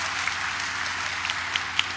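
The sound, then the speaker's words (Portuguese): A church audience applauds during a service with steady, dense clapping. A few sharper individual claps stand out from the continuous wash. “Isso, uma salva de palmas.”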